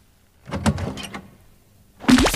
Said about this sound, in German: Warten Sie, ich mache die Tür einen Spalt auf.